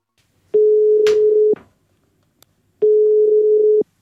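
A telephone ringing for an incoming call: two steady, low, pure ring tones of about a second each, separated by a silent gap, with a soft click between them.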